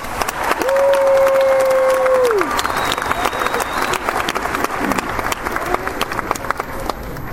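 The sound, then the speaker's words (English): Audience applause at a 2015 high school graduation ceremony, a loud sustained mass of clapping from a large crowd that stays steady and dense throughout. “Please join me in giving Francisco Fernandez and Mia McLeod a round of applause.”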